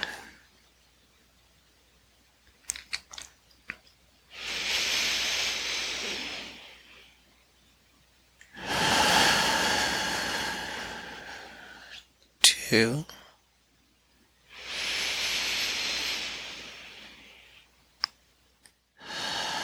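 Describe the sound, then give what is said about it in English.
Slow, forceful breaths pushed out during a guided breathing exercise, heard as three long, airy hissing exhales spaced evenly apart, with small clicks and quiet gaps between them. “And really squeezing out every last molecule, continuing your exhale. One, push it out.”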